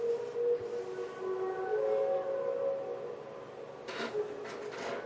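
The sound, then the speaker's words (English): A mysterious sound from the sky, a low, sustained droning tone like a huge machine or trumpets, with layered horn-like pitches held steadily and fairly faint throughout. “It sounds like a huge machine is moving. Or someone's playing trumpets. Or someone's testing out their new stereo system.”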